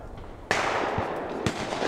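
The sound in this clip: Two sharp shotgun blasts from a clay shoot fundraiser at the 1 in 100 Club in Lumberton, Southeast Texas, ring out about a second apart, each a sudden loud crack that trails into a noisy decay.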